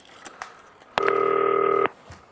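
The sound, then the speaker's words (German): Dialing on a green telephone: a few faint clicks, then a single steady electronic beep lasting about a second, followed by quiet. “Muss ich mal eben das 40-köpfige Team anrufen. Grüne Telefon benutzen.”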